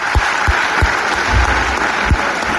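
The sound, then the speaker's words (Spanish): Sustained applause from a packed theatre audience at La Maya after a stage play, dense steady clapping with a few low thuds scattered through it. “esta es la ovación cerrada que el público de La Maya brindó a Itziar Sistiaga y a Patxi Pérez tras la representación el pasado sábado”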